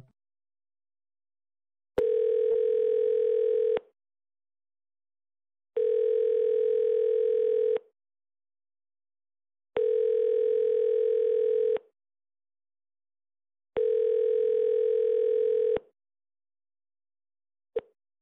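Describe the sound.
Telephone tones play before a voicemail recording, four long steady beeps of about two seconds each at one mid pitch, separated by equal silent gaps, with a brief blip at the very end.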